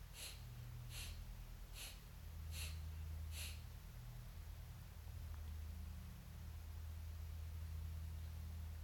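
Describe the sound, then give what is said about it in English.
Breath-of-fire yoga breathing, five short, sharp out-breaths through the nose in an even, quick rhythm over a faint steady hiss. A low hum continues alone after the puffs stop. “you could do the breath of fire here. Short, sharp out breaths through the nose.”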